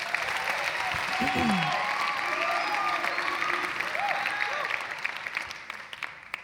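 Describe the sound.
An audience applauds to welcome a speaker back. The clapping is steady and fairly soft, with a few raised voices mixed in, and it thins out toward the end.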